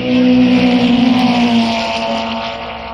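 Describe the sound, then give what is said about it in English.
Ferrari and BRM racing cars passing the start of a motor race, a loud roaring engine drone that peaks early, then gradually fades. “And here they come once again. See the city. The Ferrari is crowding the BRM very closely. They're about 15 yards apart as they go past the start.”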